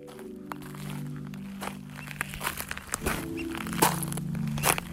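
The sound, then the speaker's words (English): Footsteps crunching outdoors on Portland Island, across the channel from Juneau, Alaska, as many uneven steps with crackling over a steady low drone, growing slightly louder toward the end. “right now I'm walking on an island just across the channel from Juneau called Portland Island”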